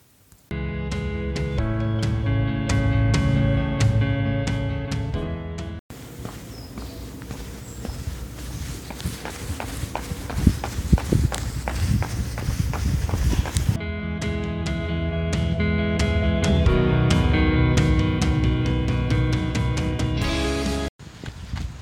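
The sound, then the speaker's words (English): Running footsteps on a regular route around a canal park: a quick, steady patter of many steps in a noisier middle stretch, with sustained tonal music before and after. “The run has started off nicely. I'm doing one of my regular running routes”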